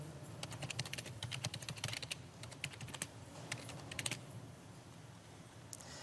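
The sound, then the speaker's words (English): Typing on a computer keyboard: many quick, irregular key clicks at a steady moderate level, busier in the first half and sparser toward the end. “apologize for my typing”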